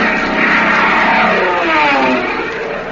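Engine roar of a P-38 fighter plane, a dense, loud, steady propeller drone that wavers slightly in pitch and holds unbroken throughout, with no voices.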